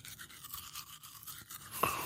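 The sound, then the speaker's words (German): A toothbrush with toothpaste scrubs teeth at a workplace at midday. Soft, wet back-and-forth strokes repeat in a quick, steady rhythm, with a brief sharper scrape near the end. “Ich habe Zahnpasta, ich habe eine Zahnbürste. Ich putze mir am Mittag Zähne im Geschäft. So schlimm bin ich nicht. Und jetzt tue ich Zähne putzen.”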